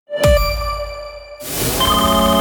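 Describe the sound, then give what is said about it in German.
A telephone ringtone sounds for an incoming call: bright chiming tones with a ringing shimmer. A second chime enters about halfway through and sustains to the end. “Wenn eine unbekannte Nummer anruft, geht keiner gern ans Telefon.”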